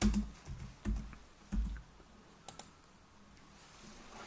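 Sparse typing on a computer keyboard: a few soft key clicks and thumps at irregular intervals, quiet, with no voices.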